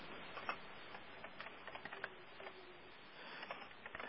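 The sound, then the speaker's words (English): Faint, irregular tapping of computer keyboard keys as someone types a line into a chat, with light clicks scattered over a low background hiss. “I just typed a new line into the chat board”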